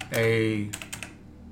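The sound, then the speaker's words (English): Typing on a computer keyboard while designing a paperback book cover: a few quick, light keystroke clicks follow a short spoken phrase. “I'm going to type in”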